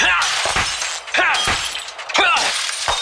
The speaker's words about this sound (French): Bah je défonce tous les haut-parleurs du Parc Oel.